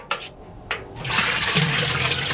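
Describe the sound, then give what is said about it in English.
Water emptied from buckets into a big metal basin: two brief splashes, then a long, steady, loud gushing pour that continues to the end, with no voices. “carries buckets from a neighbor's house and empties them into a big metal basin”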